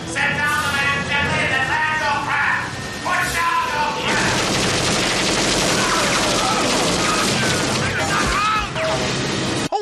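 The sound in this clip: Gunfire aimed at a police helicopter in an action film scene: after opening voices, a dense, loud barrage of rapid shots runs almost continuously, forming a sustained harsh roar.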